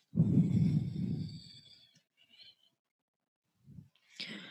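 A long, forceful exhale during a low push-up in an exercise routine, a breathy rush that fades out. A few faint, brief breaths follow near the end.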